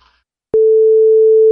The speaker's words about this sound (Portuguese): Então vamos lá. Vamos ligar aqui pro cara.